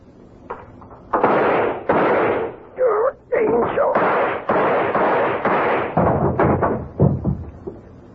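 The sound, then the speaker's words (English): A gun is fired until it is empty: a rapid run of loud, heavy shots, each ringing out briefly before the next, with a voice breaking through between them. “All the gun's empty now. I carried this for 3 years. I never used it.”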